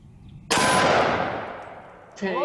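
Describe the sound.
A single loud gunshot from a firearm: a sharp crack that rings into a long, slowly fading tail, with a voice starting as it dies away.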